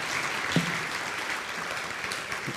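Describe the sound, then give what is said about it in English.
Audience applause welcomes a speaker at a Lakeside church gathering, a faint, steady patter of clapping hands that continues evenly throughout. “So let's give Chris a warm Lakeside welcome.”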